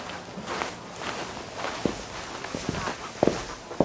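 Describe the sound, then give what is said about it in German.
Footsteps descend a staircase in a darkening area near animal cages. Several irregular, soft thuds stand out against a steady noisy background, growing a little sharper toward the end. “Wir gehen jetzt da die Treppe runter. Komm.”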